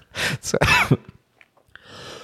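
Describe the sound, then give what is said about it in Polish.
Harsh coughing from a man who has choked on his own saliva: a few rough bursts in quick succession, then quieter breathy sounds and a faint hiss at the end. “Zakrztusiłem się śliną z wrażenia.”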